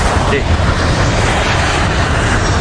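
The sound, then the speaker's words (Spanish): A Ryanair regular passenger flight takes off, its engines making a loud, broad, unbroken roar that stays steady from start to finish, with no voices over it. “Escuchamos el despegue.”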